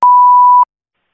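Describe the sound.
A single steady electronic beep from an answering machine before a voicemail message, a clear mid-pitched tone held for just over half a second, then cut off into silence.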